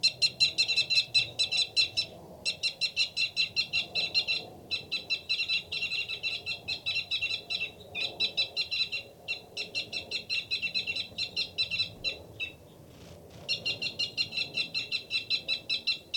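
A male bird gives a loud, rapid fight call: bursts of fast, high, repeated chirping notes with brief gaps between them, continuing throughout over faint low background noise.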